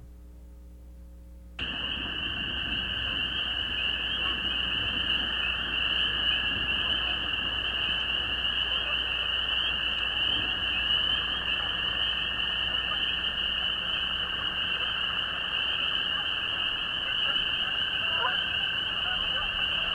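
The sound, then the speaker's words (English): A strong chorus of spring peeper frogs forms a dense, continuous blur of high, overlapping peeps. After a brief quieter start it switches on and holds steady and loud throughout, with no individual calls standing out. “This is a good example of a blur of sound created by a strong spring peeper chorus.”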